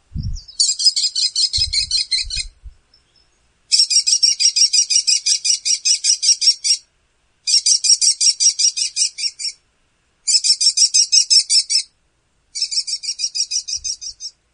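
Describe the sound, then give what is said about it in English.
American kestrel alarm call played from a birding app: five bursts of rapid, shrill, high-pitched repeated notes, each series lasting one to three seconds and separated by short silences. “that is an alarm call.”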